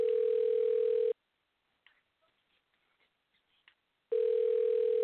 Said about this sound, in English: Hello? Your call is being transferred. Not good. I want to talk to somebody human.